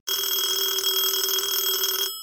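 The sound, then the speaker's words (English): An early-morning 1979 telephone call arrives as a single sustained electric bell ring, about two seconds of steady, bright metallic trilling that stops abruptly and leaves a short fading tail. “the phone rings at 4 a.m., a little bit earlier than Mr. Jordan was accustomed waking up.”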